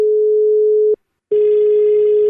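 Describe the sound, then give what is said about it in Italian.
Steady telephone line tone after a call drops: a single even, mid-pitched hum plays for about a second, stops briefly, then resumes at the same pitch over a faint background hiss until the end. “qui deve essere caduta la linea”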